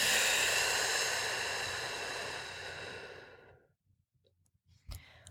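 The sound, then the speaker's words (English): A deep breath sounds alone as a long, airy whoosh that slowly fades over several seconds. Near-silence follows, broken by a faint, brief noise. “let's take a big old inhale and exhale it out.”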